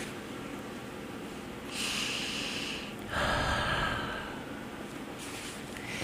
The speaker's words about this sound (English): Take some nice inhale and exhale.